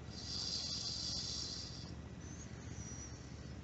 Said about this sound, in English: And now taking one more conscious deep breath in through your nostrils.